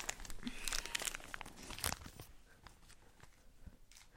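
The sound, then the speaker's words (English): A chocolate mint's wrapper crinkles and rustles as it is unwrapped, with a flurry of quiet, crisp crackles that thin out and grow fainter toward the end. “Sir, you forgot to eat your chocolate mint. Let me just get it for you. Okay, let me unwrap it.”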